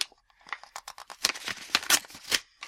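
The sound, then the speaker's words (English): Paper tearing and crinkling as a Christmas card envelope from Ireland is opened: many short, dry rips and rustles that grow louder and denser toward the end. “Yes, I have a Christmas card from Ireland, which I was going to open on the air here. Hooray! I like this innovation, opening live on the air.”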